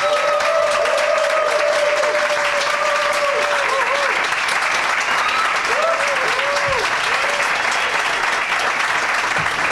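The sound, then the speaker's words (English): Thunderous applause as guests walk onto a stage: dense, continuous clapping from a large crowd that fills the whole stretch, with cheering voices and whistle-like calls rising through it. “they're going to come out to thunderous applause”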